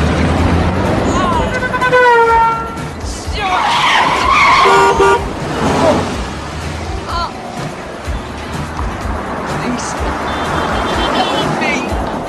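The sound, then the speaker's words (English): Tires screech loudly as a 4x4 swerves and skids in street traffic, the squeal wavering, then giving way to engine noise and shouting voices. “A 4x4 swerves to avoid him.”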